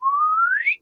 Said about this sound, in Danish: når de her neutronstjerner og sorte huller kolliderer, så giver det sådan et såkaldt chirp-signal. Det vil sige, det giver et gravitationsbølgesignal, som stiger i både frekvenser og amplitude. Det lyder nogenlunde sådan her.